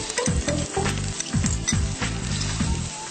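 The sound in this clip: Chopped shallots sizzle loudly in heated oil, a constant crackling hiss broken by repeated low scraping pulses as they are stirred in the pan.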